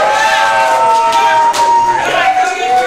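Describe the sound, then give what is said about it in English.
A live theatre audience cheering and making noise, a loud sustained wash of crowd sound with raised voices and a high, wavering whistle-like tone running through it. “Ladies and gentlemen, I am now going to ask our audience to make some noise because Theatre of the World is live!”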